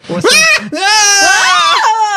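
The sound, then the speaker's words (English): People scream loudly with high, wavering voices that overlap and hold for about two seconds after a short first cry. “What did we just scream for? I thought I saw a fox.”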